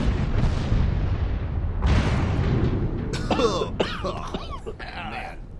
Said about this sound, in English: I swear those are smoke bombs.